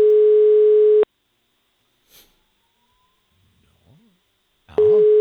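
A telephone tone while a call is placed to the next caller: a steady tone lasting about a second, a quiet gap with faint small noises, then the same tone resuming at the end.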